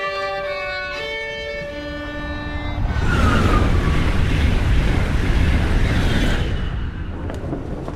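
A train arriving at a station: a sustained chord of horn-like tones gives way to a loud, broad rumble of rail noise that swells and holds, then eases slightly near the end.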